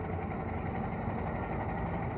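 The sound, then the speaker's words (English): A vintage De Dion-Bouton car engine labours up a slight hill amid ordinary traffic in Hyde Park, giving a faint, steady, low rumbling drone with no clear change in pitch. “A London taxi is just giving us way as Ozzy is revving the Dion Bouton up a slight hill.”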